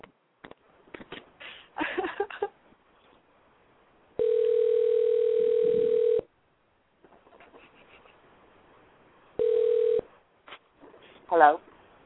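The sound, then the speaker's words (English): Telephone line tone after a call is dialed: two long, steady mid-pitched tones, one lasting about two seconds and a shorter one later, with voices and scattered noises around them. “All right, I'm gonna hit dial. We're gonna see what happens. Let's see if this person wants to answer”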